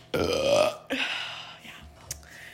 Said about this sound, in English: That was a horrible noise. Which part, the burp or that? Both.